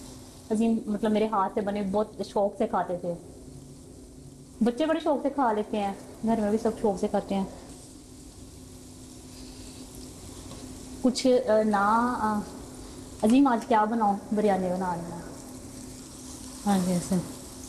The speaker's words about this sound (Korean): 우는 아이를 달래놓고 본격적으로 시작된 요리. 오늘 선보일 메뉴는 가족에게 특별한 음식이랍니다.